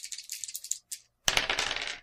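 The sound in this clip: Two dice rolled on a table for a horror check in a tabletop game: a quick run of small rattling clicks, a brief pause, then a louder burst of clattering that tapers off.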